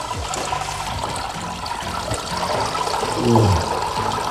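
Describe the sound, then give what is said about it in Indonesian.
Water trickles and splashes as grated coconut mixed with water is squeezed by hand to press out coconut milk. The steady, wet pouring sound swells briefly near the end, with no talk. “Campur kelapa yang sudah diparut dengan air, lalu aduk sampai sari santannya keluar maksimal, baru kemudian diperas. Peras lagi ya.”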